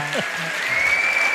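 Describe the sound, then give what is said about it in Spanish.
Audience applause at a political speech, a dense, steady wash of clapping that fills the whole stretch, with a voice briefly audible at the very start. “Lo mejor son los aplausos.”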